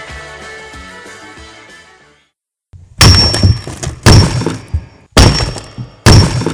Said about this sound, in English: That's the sound of rock cracking.